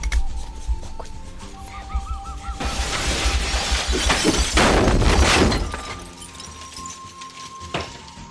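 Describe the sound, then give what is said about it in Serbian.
Glass breaking with great force: a loud, dense shattering burst lasting a few seconds, full of bright tinkling fragments, then fainter clinks of pieces settling. “Lomljenje stakla. Neko opasno lomljenje stakla.”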